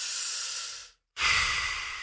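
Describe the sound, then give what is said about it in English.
A deep breath: a long airy inhale, a brief pause, then a strong hissing exhale. Loud and alone, with no talk. “Deep breath. Find your center.”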